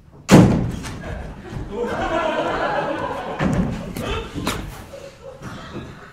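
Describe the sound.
A heavy thud of someone banging against a door during a stage play opens sharply and loud, followed by quieter shuffling and people talking.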